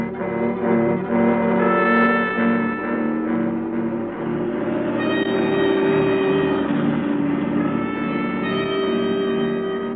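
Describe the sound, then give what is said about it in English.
A car engine drives into town as a radio drama effect: a steady, droning hum with sustained tonal layers that shift in pitch partway through, played alone without voices. “Look, Helen, I'm going into town for a drive.”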